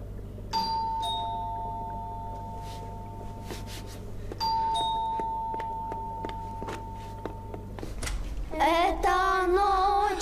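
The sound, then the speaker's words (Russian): A two-tone ding-dong doorbell at a home's front door rings twice, each chime ringing on and fading slowly, with a few light clicks in between, before children's voices break into singing at the end. “Звонок в двери.”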